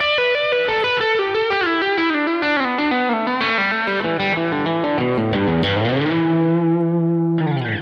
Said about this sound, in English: I played a descending E minor pentatonic scale using a melodic pattern in groups of three, and to make it sound legato, I only picked the first note on each string and then I left the rest to my left hand. It sounded like this.